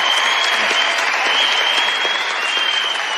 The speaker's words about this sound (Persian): حالا هیچ کس نتونست انقدر به وجدشون بیاره بلندشن وایسن براش دست بزن.